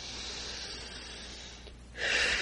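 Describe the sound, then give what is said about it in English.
A deep breath taken during a spiritual guided meditation: a long, steady, airy inhale that swells into a stronger rush of breath near the end. “We take a deep breath.”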